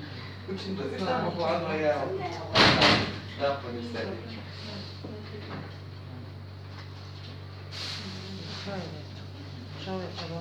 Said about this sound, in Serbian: pritvori malo vrata, ovde je hladno.